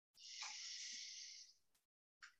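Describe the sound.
A person takes one slow, deep breath in, a soft, airy hiss lasting about a second and a half, faint and alone, followed by a brief pause and the start of another breath.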